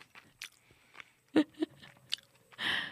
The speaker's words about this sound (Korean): 네, 막 들어가요. 씹는 소리.